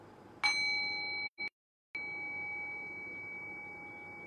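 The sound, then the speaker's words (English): A single struck meditation bell rings out with a clear, high, sustained tone and bright overtones. Its ring cuts out briefly into silence, then returns and holds steady to the end. “So anytime a bell is rang, you come back to the present moment.”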